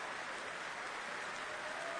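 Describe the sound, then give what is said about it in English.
Audience applause in a concert hall after a classical performance, a steady, dense wash of clapping held at an even, fairly faint level throughout, with no distinct individual claps standing out. “relishing the applause.”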